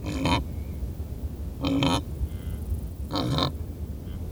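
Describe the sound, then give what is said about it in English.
Wildebeest grunting while they graze: three short, nasal grunts spaced roughly one and a half seconds apart over a low, steady background rumble. “Mark recorded these wildebeest grazing.”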